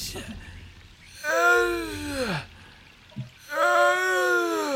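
A man's strained, voiced gasping from a broken-boned figure with a crooked neck and no lower half, hanging from vines: two long, drawn-out groaning breaths, the first sliding downward in pitch at its end, separated by a short quiet catch.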